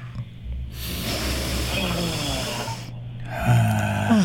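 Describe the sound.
Deep breathing during a guided relaxation exercise: a long, steady rush of air through the nose and out again runs for about two seconds. A short pause follows, then the next breath begins over a low, steady hum.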